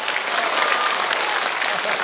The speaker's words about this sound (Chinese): 谢谢大家以这么热烈的掌声欢迎优秀的一号选手笑林上场